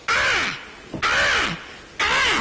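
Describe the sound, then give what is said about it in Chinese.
Crow caws come as three harsh, evenly spaced calls about a second apart, each loud with a falling tone, used as a sound effect for a small crow flying across the sky in a cartoon. “这时候呢，配着小动画，知道吗？天上飞一小乌鸦，”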